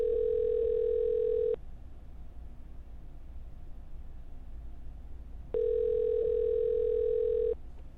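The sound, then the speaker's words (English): Ringback tone of an outgoing telephone call: two long, steady buzzing tones, the first already sounding at the start, separated by a silent gap of about four seconds over a constant background hiss. “Please answer the phone.”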